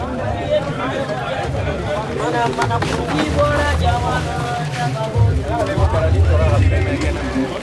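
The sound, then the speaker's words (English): A busy commercial city street full of hawkers and shoppers: dense, overlapping voices and calls with music mixed in, forming a continuous, lively clamour throughout. “where the city's frenetic commercial life seems little different than it was when we first encountered it more than 20 years ago, a collage of voices, music, and entreaties to buy just about anything.”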